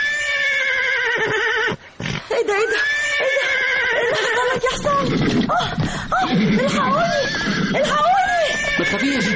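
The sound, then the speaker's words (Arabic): A horse neighs and whinnies repeatedly, a loud, wavering high-pitched call that rises and falls, with snorting breaths and voices mixed into busy background noise. “اهدى يا حمار يا حصان قصدي. طب انزلي انزلي انزلي بسرعه، خلي بالك خلي بالك. رجلي رجلي. مش عارف الحصان عمل كده ليه.”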